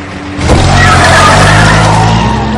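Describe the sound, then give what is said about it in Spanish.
Tires skid hard as a car swerves to dodge oncoming cars during a chase, a loud sustained screech lasting about two seconds over a steady engine rumble. “Esquivan a coches que vienen de frente.”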